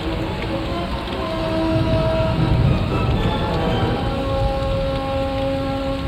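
Heavy lashing rain pours over a forest canopy, a loud, dense and steady hiss with a low rumbling undertone that holds throughout, with no voices.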